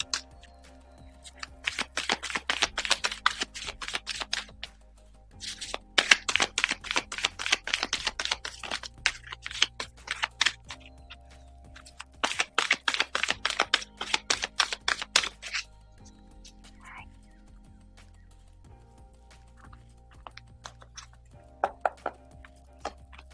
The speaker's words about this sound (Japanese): それでは、カードシャッフルしながら、今日のメッセージ下ろしていきます。